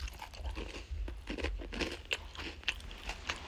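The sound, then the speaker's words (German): Crunchy chocolate cookies being chewed: quiet, steady crunching and grinding with a few sharper cracks standing out, and no talk. “Ich esse eh Schokokekse während der Aufnahme, also viel schlimmer kann es nicht werden.”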